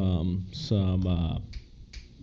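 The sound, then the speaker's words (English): Sharp finger snaps ring out during a casual gathering at a house. A few crisp clicks follow a stretch of conversation, and voices are heard around them. “Don't snap your fingers at me.”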